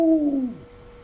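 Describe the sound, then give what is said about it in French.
An owl hoots at night over moonlit graves, a single drawn-out mournful hoot that slides downward in pitch and trails off into quiet. “parfois une chouette s'envolait en ululant lugubrement. Ouhouhou ! Ouhouhou !”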